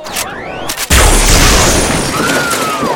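A single loud gunshot, fired to get a crowd's attention, breaks in as a sharp, heavy blast and rolls into a long, sustained roar. Whooshing tones surround it.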